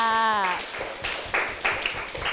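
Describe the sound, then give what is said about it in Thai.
Classroom applause from students, beginning just as a woman's voice ends, then scattered, uneven handclaps with a few sharper bursts standing out. “ปรบมือให้กับทุกๆคนเลยค่ะ”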